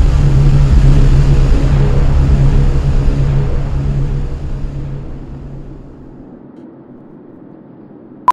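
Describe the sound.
A car engine at full throttle, driven toward a tunnel wall: a loud, steady, low roar that fades over the last few seconds, ending in a single sharp click.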